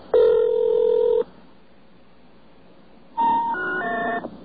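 A telephone dials *67 and answers with a pulsing dial tone: a loud burst of layered electronic tones, a pause of near silence, then a second set of tones that shifts and pulses before cutting off.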